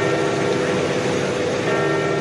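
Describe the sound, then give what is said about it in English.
Church bells ring out over St. Peter's Square, a dense, sustained peal of overlapping tones that stays loud and unbroken throughout. “Bells rang out in St. Peter's Square after the sad news.”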